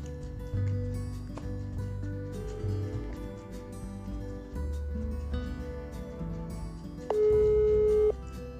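Telephone tones as a guest is being called, with a steady electronic beep sounding clearly near the end over a layered, sustained background.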